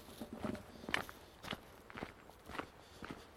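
Soft footsteps walking at the edge of a conifer plantation beside woodland, a steady series of faint, crunching steps at an unhurried walking pace.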